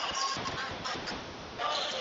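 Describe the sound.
A basketball dribbled on the court during a college game against Olivet: a few dull, rhythmic bounces under a commentator's running play-by-play.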